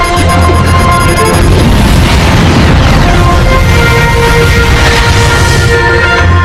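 A loud, sustained explosive roar from a yellow sun grenade: a dense, rumbling blast with a tonal hum running through it, holding at full strength for the whole stretch without easing off.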